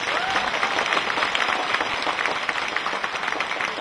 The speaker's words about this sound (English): Let's give a big round of applause to welcome our guest of honor, the beloved Supreme Master Ching Hai.